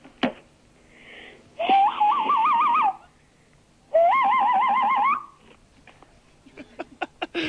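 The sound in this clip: A man imitates bird calls with two long, loud, warbling whistled phrases, each trilling rapidly up and down. Short clicks and faint noises sit before, between and after them.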